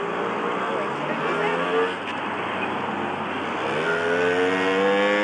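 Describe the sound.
A moped engine passes by with a steady buzzing drone whose pitch climbs toward the end.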